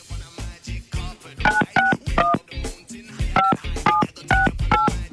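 A telephone number is dialed for a call: a few crisp keypad tones, seven in all, sound in two quick bursts over a busy background.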